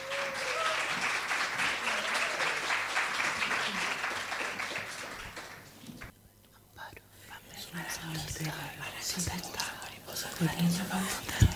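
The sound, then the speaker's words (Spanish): Audience applause welcoming a poet at a cultural event. Dense clapping runs for about six seconds, then dips briefly before scattered clapping and faint voices continue. “Un gran aplauso, por favor, para recibirla.”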